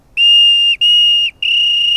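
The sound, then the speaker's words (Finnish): Homemade willow-bark whistle blown in three shrill, steady, high-pitched blasts, the first two short and separated by brief gaps, the last held to the end. “Kun pistää kielen tärisemään, niin tätä voi käyttää erotuomarin pillinä.”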